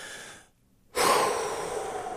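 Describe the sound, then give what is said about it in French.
One person sitting in a car takes a deep breath in. After a brief silence comes a sudden airy rush of inhalation that starts strong and slowly tapers, with no talk. “On prend une grande inspiration dans l'auto avant d'embarquer dans le train du travail, là.”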